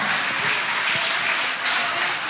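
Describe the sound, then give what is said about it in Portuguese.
A church audience applauding during a worship service: dense, loud, continuous clapping that stays steady throughout with no voices standing out. “Pode aplaudir, pode adorar.”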